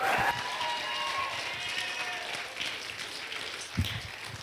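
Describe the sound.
Audience applause welcoming a speaker at a gathering, a steady patter of many hands clapping that continues throughout at moderate loudness, with some crowd noise mixed in.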